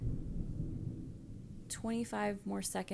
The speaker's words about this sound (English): There's a thunderstorm going on here, so the rumbles you hear, if you hear them, that's what that is.